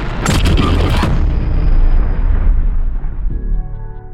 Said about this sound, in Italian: Poco dopo la metà di Oppenheimer, circa dopo due ore, esplode la bomba.